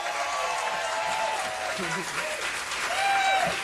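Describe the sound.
Applause from a packed-house audience at a live music show, a dense, steady wash of many hands clapping at a constant loud level, swelling slightly toward the end, with a voice briefly audible over it.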